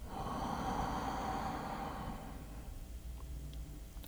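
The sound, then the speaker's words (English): A deep breath drawn in and let out during a guided meditation: one long, airy rush of breath that holds steady for about two seconds, then fades into near quiet. “Take a deep inhalation. Inhale and exhale.”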